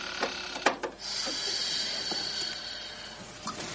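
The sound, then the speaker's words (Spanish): A knife turns a screw in the wooden boards of a chest at night: a few sharp clicks, then a sustained gritty creaking scrape of metal working against wood, fairly faint, with no voices. “Con un cuchillo gira uno de los tornillos de las tablas de madera que puso el clérigo.”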